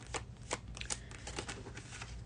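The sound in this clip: Tarot cards being shuffled before one is drawn for a reading: a few soft, quick papery riffles and flicks, faint and alone.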